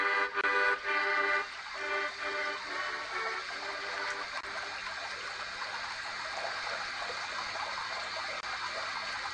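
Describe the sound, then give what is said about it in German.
Water runs steadily from a tap while filling a small pool, a continuous hissing, splashing flow that keeps an even level throughout. “Jetzt kann ich auch den Wasserhahn zudrehen. Jawohl, der See ist, glaube ich, groß genug.”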